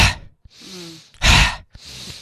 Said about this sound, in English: If you do something that's called a fire breath, which is breathing in, and then as you breathe out, it's really quite a forced out breath.